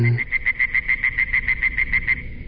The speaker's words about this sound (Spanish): ¿Es posible que haya sido porque me dormí escuchando un concierto de ranas?